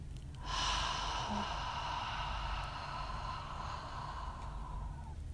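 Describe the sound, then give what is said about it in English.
A deep breath drawn in through the nose and let out through the mouth, heard as one long, soft, airy hiss lasting several seconds, faint and alone. “Take a deep cleansing breath in through your nose. Exhale through your mouth.”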